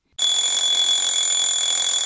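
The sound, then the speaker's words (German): An alarm clock rings in the background of a stage play, a loud, continuous, high-pitched electronic ring that starts abruptly and holds steady without a break. “Im Hintergrund klingelt ein Wecker.”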